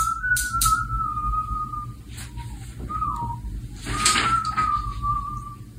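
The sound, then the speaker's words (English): A 14-year-old boy whistles while cleaning his desk, producing a few sustained, fairly high notes with small slides between them. Soft rustling and light clatter from the tidying sit underneath. “Here's the sound of my 14-year-old son whistling. He was cleaning his desk, just taking his time as he started to prepare for high school as a freshman.”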